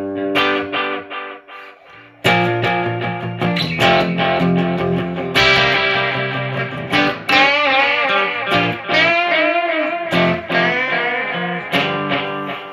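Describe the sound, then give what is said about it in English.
Electric guitar through a driven slapback delay: loud, gritty chords and single notes with short echoes trailing each. A few opening notes are followed by a brief gap, then denser playing. “Your delay is what's driven. Slapback delay. It's a good slapback.”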